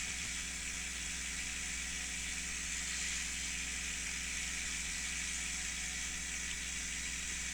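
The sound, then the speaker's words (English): Steady engine drone of a light aircraft flying slowly on approach, with a tailwind, in a flight simulator game: a constant low hum under a broad airy hiss, unchanging throughout, with no talk. “I'm sure it hurts my motor to go so slow.”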